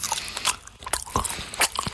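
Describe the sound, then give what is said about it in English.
Loud, wet chewing and biting, likely on grapes, comes as irregular crunchy bites and squelchy chews one after another, close and prominent. “It's just very hard to concentrate. You're chewing very loudly. I'm the king. I will chew how I want to chew.”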